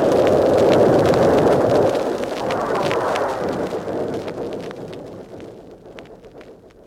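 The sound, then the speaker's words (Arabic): A huge explosion like a volcano erupting, as a sound effect: a heavy, rumbling roar already loud at the start, with crackling bursts throughout, slowly fading away over several seconds. “هو سمع انفجار كأنه بركان، وارتج المكان وامتلأ بالدخان”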